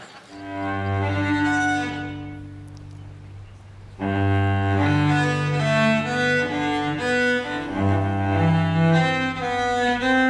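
Bowed cello playing a movement from a cello suite: rich, sustained low notes with a warm, resonant tone. A soft, thinner passage comes midway before the instrument returns fuller and louder, with no voices.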